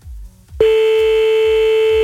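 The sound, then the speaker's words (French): A steady electronic telephone line tone sounds as a number is dialled to call a listener. It comes on abruptly after a brief stretch of low rhythmic thumps and then holds loud and unbroken. “Allez, c'est parti, on y va, on appelle tous les numéros que vous nous avez laissés sur le mail de Toff”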